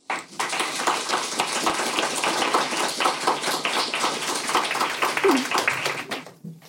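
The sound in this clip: Audience applause welcoming two speakers to a poetry event in Oslo, steady dense clapping that holds evenly for about six seconds before tapering off, with no voices.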